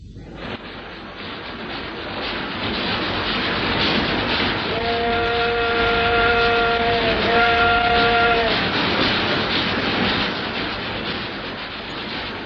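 Trains passing make a steady, loud rumbling roar that lasts throughout. Midway a sustained horn sounds twice in close succession over the noise.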